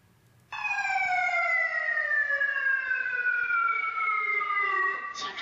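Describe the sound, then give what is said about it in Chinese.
A fire alarm siren wails inside an office building during a fire drill. The loud, continuous tone lasts about five seconds, its pitch sliding slowly downward. “大楼内响起火情报警与疏散广播”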